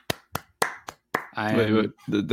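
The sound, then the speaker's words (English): A person clapping hands, five sharp, evenly spaced claps ringing out alone before a voice starts speaking. “that deserves so much more than just me clapping.”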